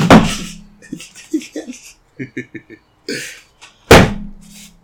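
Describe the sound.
Two loud, sharp door slams about four seconds apart bracket a stretch of muffled voices and small clatters. The second slam is as abrupt and forceful as the first.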